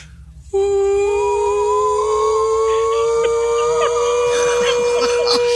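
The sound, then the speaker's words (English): Two voices imitating air raid sirens in an echoing tiled bathroom: a loud sustained wailing tone starts abruptly, then a second, higher voice joins about two seconds later, and both hold together in close harmony. “What if we were to do, like, air raid signals in the bathroom, the sirens?”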